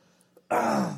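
A man clears his throat after something catches in it: one short, gruff, rasping burst that starts abruptly after a faint click and fades quickly.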